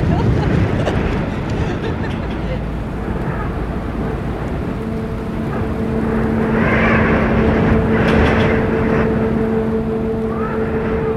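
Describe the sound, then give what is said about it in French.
Wind whips against a jacket hood on a boat at sea in rough, wave-heavy weather, making a loud continuous buffeting roar. A steady low hum joins partway through. “j'ai le vent qui fouette dans la capuche”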